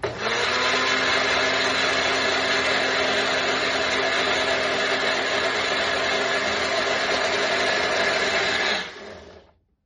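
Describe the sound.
Food processor whirring through potatoes and garlic in one loud, steady, harsh, grinding run of about nine seconds, then winding down quickly to silence, with no talking.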